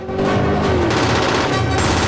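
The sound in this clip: Rapid automatic gunfire erupts in a film action scene as a parachutist falls under fire, a dense, continuous barrage of loud, overlapping shots.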